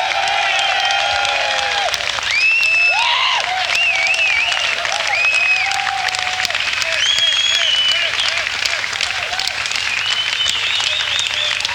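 An audience applauds to welcome a band's guitarist on stage: dense, loud, continuous clapping with high whistles and cries cutting through it from start to finish.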